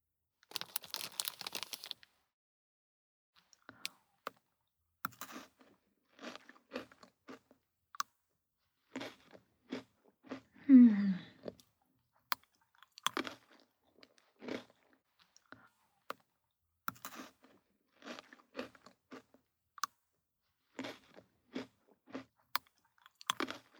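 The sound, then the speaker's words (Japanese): Crunching and chewing of Pocky chocolate biscuit sticks: many short, crisp crunches and clicks at irregular intervals, mostly faint, with one louder burst of crunching partway through and quiet gaps between bites. “ポッキーよ。はい。食べていいよ。でも食べ過ぎには注意ね。私も食べようっと。”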